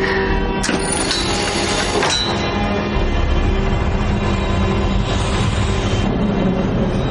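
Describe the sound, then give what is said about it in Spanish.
A train runs at night as it slows, with a steady rolling rumble of the cars and a high metallic wheel squeal near the start. “El tren pierde velocidad en la noche.”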